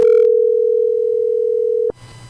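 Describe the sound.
A telephone dial tone sounds while a call is being placed, a steady unbroken single-pitch hum lasting about two seconds before it cuts off abruptly into faint hiss.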